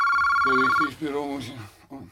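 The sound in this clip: A telephone rings in one bright, warbling electronic burst that is cut short, then a voice starts talking over quieter background sound.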